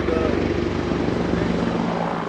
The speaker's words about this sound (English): A U.S. Army helicopter flies overhead, drowning out the governor in his heavily fortified compound.